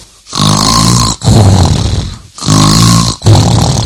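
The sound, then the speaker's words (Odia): A king asleep on a cot snores loudly, with long, heavy rumbling snorts following one another in close succession and only brief gaps between breaths. “ଭାଇମାନେ, ରାଜା ତ ଘୁଙ୍ଗୁଡ଼ି ମାରି ଶୋଇଛନ୍ତି”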